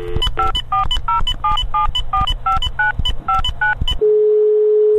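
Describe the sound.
Telephone keypad tones beep in a quick run of many short bursts as a call to the Rubika company is dialed, followed by a steady, unbroken tone.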